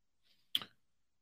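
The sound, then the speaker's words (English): A single faint click of a computer mouse, sharp and short, preceded by a soft, brief tick. “Hold on one sec. I got to go over here and click on stuff.”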